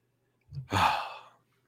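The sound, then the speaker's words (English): A single deep human breath, a short soft intake followed by a longer, louder airy exhale that fades out, with no talking. “Let's just all take a collective moment. Just a nice, deep breath.”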